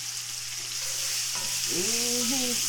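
Mushrooms sizzle in a pot with steak seasoning, a loud, steady frying hiss that carries on throughout, with faint stirring beneath it.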